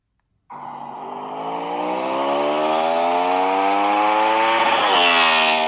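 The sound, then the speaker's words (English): A Honda motorcycle engine revs hard toward its rev limiter. Its pitch climbs steadily and holds high and loud, with a brief dip near the end. “Ooh, riding that rev limiter. It's a Honda, man.”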